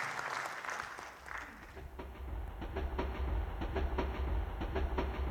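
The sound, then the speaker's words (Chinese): Audience applause at a gathering, which begins soft and builds into many steady, crisp claps over a low rumble. “感谢大家默默掌声”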